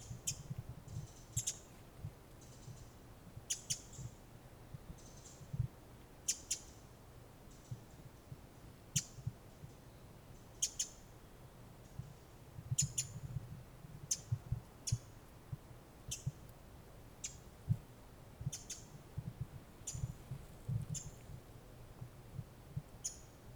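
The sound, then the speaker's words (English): Varied thrush and Pacific wren calling in October: many short, high chirps and clicks repeat at irregular intervals over a faint, steady low rumble. “Hearing a varied thrush in the background. This is October. You hear the Pacific wren, or the winter wren.”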